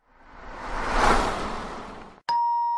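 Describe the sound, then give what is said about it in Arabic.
A doorbell rings after midnight: a single bright, sustained ding with ringing overtones cuts in at the end. Before it, an airy whoosh swells and then fades away. “أنا أيضا جربت صوت جرس الباب بعد منتصف الليل”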